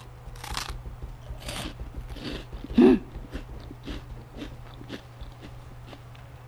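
A single crisp, loud crunch marks a bite into a light, golden crunchy snack, surrounded by faint, scattered crackles in an otherwise quiet setting.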